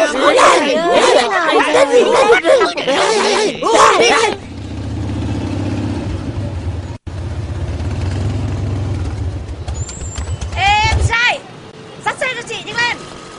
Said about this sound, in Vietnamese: Cấm Hương mới biết đi xe mà sao đi máu thế chứ này.